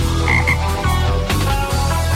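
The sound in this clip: A toad croaks in a loud, steady run of low, buzzy pulses, with no voices.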